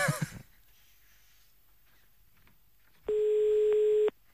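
A single loud, steady telephone line tone, about a second long, sounds as a call to Namur is placed, following brief noise at the start and quiet line hiss.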